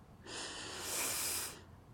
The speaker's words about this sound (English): Now, slowly breathe in through our noses.